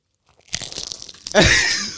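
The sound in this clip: A potato chip is bitten in close ASMR-style crunching: a crackly burst of small snaps leads into one loud, sharp crunch that fades out over the final half second.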